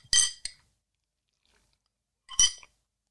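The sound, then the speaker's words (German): Someone takes a sip of a drink from a glass. Short, bright glassy clinks sound near the start and again near the end, with silence in between. “Ich trinke jetzt mal noch kurz einen Schluck und dann ein, es noch ein Fazit.”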